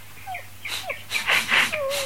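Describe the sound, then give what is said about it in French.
Small brown and red long-eared puppy whimpering: a few faint, thin, high whines mixed with breathy snuffling sniffs, ending in a longer drawn-out whine. “sortant du sac, un ravissant petit chien brun et roux dont les longues oreilles traînaient sur le sol.”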